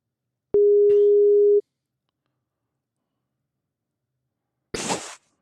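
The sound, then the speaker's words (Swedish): A telephone ringback tone sounds while a call is placed: one steady, mid-pitched beep about a second long, then silence, then a brief noisy click-like burst. “då prövar vi att ringa Tompa. Se om han svarar.”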